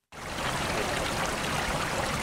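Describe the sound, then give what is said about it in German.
Steady rushing water from circulation pumps working at full speed at an outdoor swimming pool in a swimming club's training centre. The broad wash starts abruptly and holds at an even level throughout. “Die Umwälzpumpen am Freibadbecken im Leistungszentrum des Darmstädter Schwimm- und Wassersportclubs 1912, kurz DSW, arbeiten auf Hochtouren.”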